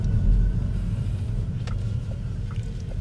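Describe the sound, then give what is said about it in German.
Steady low road rumble from a Cupra Born electric car while driving, with no engine note, just a continuous deep hum and a few faint ticks. “Ist jetzt das erste Mal, dass ich so ein Elektrofahrzeug fahre und es ist ein Cupra Born.”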